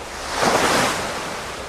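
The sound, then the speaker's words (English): Rough seas and strong wind in the Drake Passage, open ocean with no land to break the weather: a dense, hissing roar of surf and wind that swells briefly and then eases slightly. “This is what the Drake Passage sounds like. Here's where we are in a circle around the globe. There'll be no land to interrupt the weather or the wind. So these are some of the roughest seas in the world.”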